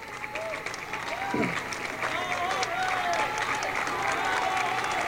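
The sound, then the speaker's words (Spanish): An audience applauds at a gathering of grassroots communicators. The dense, continuous clapping holds steady in loudness throughout, with voices audible through it. “Jorge Márquez, que le doy un gran aplauso”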